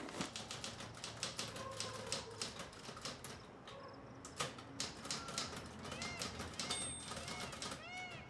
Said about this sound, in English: in Joanna's apartment, she sits in front of the typewriter.